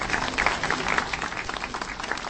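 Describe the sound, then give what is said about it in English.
Applause from a crowd at the unveiling of a commemorative plaque beside a statue in front of Prague's main train station, with dense, even clapping that holds at a moderate level throughout. “A round of applause accompanies the unveiling of a plaque in honour of the late Václav Havel.”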